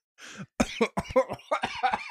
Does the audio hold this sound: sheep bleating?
no

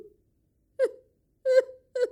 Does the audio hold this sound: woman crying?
yes

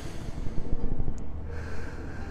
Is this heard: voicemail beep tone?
no

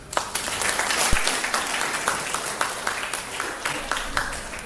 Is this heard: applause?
yes

